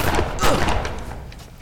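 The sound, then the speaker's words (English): Gunshots from guns loaded with blanks: a few rapid, sharp bursts packed into the first half second, then a fading rumble that trails away quickly. “What happened? There's no way we could have missed. Blanks? Our guns are loaded with blanks.”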